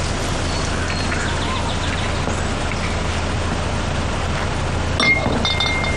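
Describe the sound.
Liquor bottles being opened and clinking, with light glassy clinks and taps scattered over a steady, noisy background with a low hum. A slightly sharper clink stands out near the end.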